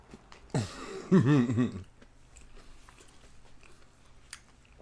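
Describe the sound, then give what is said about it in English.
Biting into and chewing a Sara Lee custard tart warmed in the oven, with a crunchy bite, a short voiced murmur, then faint chewing. “a Sara Lee custard tart thingy that I've put in the oven, and I'm going to smash with my brother.”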